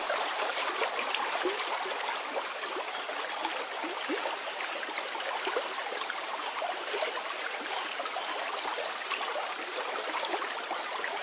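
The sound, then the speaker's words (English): Water gushing down a stream, a steady, dense rushing and splashing that stays at an even, moderate loudness throughout with no voices. “With the sounds of water, gushing down the stream or the falls, whatever you may imagine, the sound of the water in the background there.”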